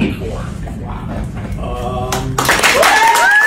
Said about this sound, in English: Applause is a little louder than I expected.